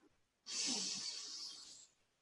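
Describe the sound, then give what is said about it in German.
Deliberate breathing during a guided meditation, in through the nose and out through slightly parted lips: one long, soft, airy rush of breath starts abruptly, holds, then fades away over about a second and a half, with no voices. “Und während du deine Augen schließt, atmest du ganz bewusst durch deine Nase ein, durch den leicht geöffneten Mund wieder aus.”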